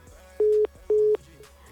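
Two short, steady beeps of a busy signal on a telephone line while a caller is redialed, each tone even in pitch and separated by a brief gap.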